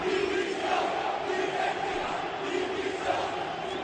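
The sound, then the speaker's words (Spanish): Sevilla fans fill the Sánchez Pizjuán stadium with a dense, steady roar of shouting voices after a 0-2 home defeat to Girona, loud and unbroken from start to finish. “Este es el sonido que se ha dado hoy una vez más en el Sánchez Pizjuán después de que el Sevilla haya perdido 0-2 con el Girona.”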